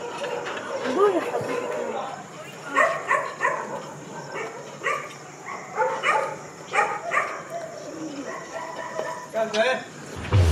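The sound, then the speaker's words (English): A rescue dog, a former stray from Cairo, Egypt, barks in many short bursts, with voices alongside. “Layaly is a rescue dog from Egypt. She's now starting a new life in Canada.”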